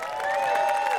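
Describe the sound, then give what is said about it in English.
Applause and cheering from an audience after a set by the old-time music band the Onlys. A brief, steady crowd roar carries a sustained whoop throughout. “How about another big round of applause for the Onlys?”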